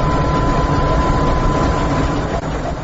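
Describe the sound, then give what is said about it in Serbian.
Steady, loud, low rumble of a train departing from a station in Torez, a continuous heavy engine drone with little change over its length. “Agencije prenose snimke voza u trenucima samog polaska iz stanice u gradu Torez.”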